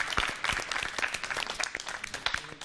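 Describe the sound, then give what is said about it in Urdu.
An audience breaks into loud, steady applause to welcome a guest called forward at a salad-tasting event to guess which salad his wife made. Dense clapping runs unbroken throughout. “تالیوں سے ان کا استقبال کرتے ہیں.”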